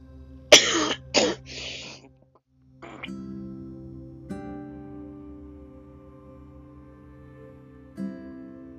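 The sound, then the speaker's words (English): A person coughs, a quick cluster of harsh, loud coughs followed by a quieter cough and throat-clearing sounds, with long near-silent stretches in between. “I think more I cough, the more I'm gonna get. I don't know why. I keep on coughing, and it's like, really, I can't even help it. I can't stop coughing.”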